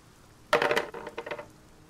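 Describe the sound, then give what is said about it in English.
Dice rolling in a dice tray during a tabletop fantasy role-playing game: a sudden rattling clatter of hard impacts, then a few smaller clicks as the dice settle, about one second in all, with no talk. “All right, roll me a strength saving throw then.”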